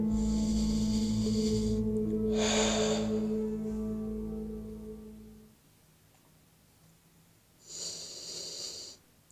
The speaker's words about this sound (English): Deep breaths, as deep as we could ever go into our entire being.